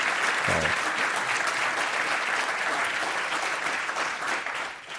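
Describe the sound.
Audience applause welcoming General Stanley McChrystal at a Commonwealth Club event: dense, loud clapping that holds steady throughout and eases slightly at the end.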